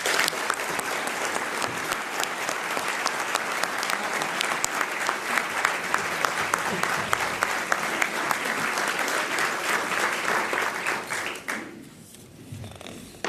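Sustained audience applause welcomes IMF Managing Director Christine Lagarde at the National Press Club. The dense clapping stays loud and steady for about twelve seconds, then quickly thins and fades.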